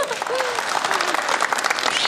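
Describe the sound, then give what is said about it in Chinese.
An audience at a stage show applauds in a dense, steady burst of clapping, with a voice briefly heard over it near the start. “哎，大家一定很期待，是不是？给鼓掌。”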